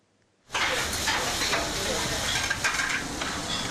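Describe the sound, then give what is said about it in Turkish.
Sizzling of liver frying in a pan, the Edirne-style pan-fried liver, starts abruptly after a brief silence and then holds as a loud, steady, crackling hiss to the end. “Tavada pişiyor, bir dakika içinde servise hazır hale geliyor.”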